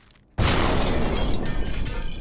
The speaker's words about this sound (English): This just in, extremely devastating explosion downtown.